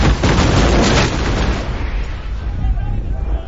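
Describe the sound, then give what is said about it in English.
A ship's starboard cannon battery fires a broadside: a heavy, loud boom at the start that rolls on as a long, low rumble and slowly fades. “Then they roll the gun forward. Report, Mr. Mott! 3rd and 4th Divisions ready, sir! Right! Starboard battery! Fire!”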